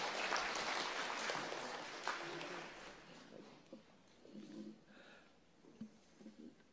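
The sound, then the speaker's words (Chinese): An audience applauds during a church's 62nd anniversary worship service. The clapping is dense at first, then thins and fades after a few seconds, leaving faint scattered sounds and low voices. “我哋俾啲掌声。”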